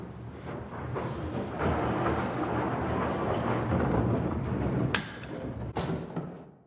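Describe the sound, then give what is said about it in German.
Hand-carved skittle balls rolling back along the return track of an old skittle alley at a castle: a loud, continuous wooden rumble that ends in two hard thuds as the balls arrive. “Die Kugeln, die alle handgeschnitzt sind, werden dann auf dieser Rollbahn zurückgerollert und dann hier geschossen.”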